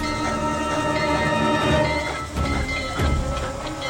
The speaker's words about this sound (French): Et hop, ils sautent dans le wagon qui les emporte vers la brillante capitale de l'Angleterre.